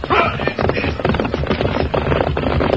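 A cavalry troop gallops, producing a loud, dense, rapid drumming of many hooves that continues unbroken from start to end.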